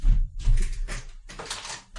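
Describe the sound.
A locked window in a hot room being unlatched and cracked open, with a few dull thumps and scraping rattles in quick succession.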